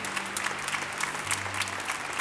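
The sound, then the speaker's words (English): Congregation clapping hands during a worship service, a dense, steady wash of many overlapping claps that continues evenly from start to finish. “Can we clap our hands and just give God praise”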